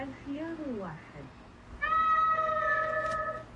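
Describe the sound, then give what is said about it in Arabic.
Two cats meowing in turn: first a short, wavering, lower meow, then after a brief pause a longer, steadier and brighter cry that holds its pitch to the end. “أي خيار يتضمن صوت مواء قطتين بالضبط”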